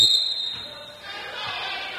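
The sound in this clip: A basketball dribbled on the sideline of a court during a game, giving a few dull, widely spaced bounces beneath a steady wash of crowd noise.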